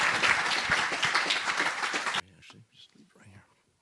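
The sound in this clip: Applause from an audience welcoming a speaker at an ISKCON of DC gathering: dense, steady clapping for about two seconds that stops abruptly. Faint, soft voices follow.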